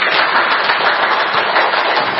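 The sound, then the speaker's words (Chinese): Warm audience applause welcomes a home-organization teacher to the stage, a dense, even wash of clapping that stays loud and steady throughout with no voices on top. “让我们接下来用热烈的掌声欢迎我们的孤井老师。”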